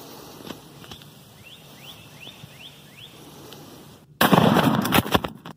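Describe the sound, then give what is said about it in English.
A quiet outdoor nature scene with faint ambience and a handful of small rising bird chirps is broken by a sudden, very loud shotgun blast whose harsh rumbling tail lasts more than a second. “You're going to hear all the little sounds of nature, and out of nowhere, the shotgun's going to go off.”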